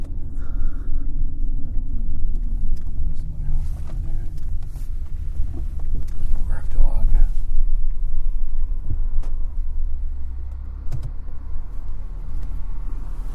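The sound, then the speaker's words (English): Low, steady road rumble of cars approaching, a deep continuous drone mixed with wind buffeting that stays fairly loud throughout. “Some cars coming.”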